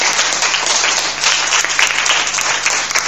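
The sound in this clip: Audience applause at a school quiz competition between primary classes: dense, continuous clapping from a crowd that stays loud and steady for the whole stretch, with no clear talk over it.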